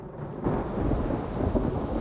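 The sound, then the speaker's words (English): Rumbling thunder and heavy lashing rain from a night thunderstorm form a dense, steady, loud roar with low booming throughout. The sound is a little quieter for the first half second, and no voices are heard. “Staring avidly through the window at the lashing rain and lightning.”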